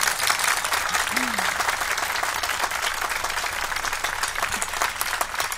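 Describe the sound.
An audience claps at a devotional poetry recitation honoring Imam Ali. The applause is dense and steady for the whole stretch, with a brief voice heard above it.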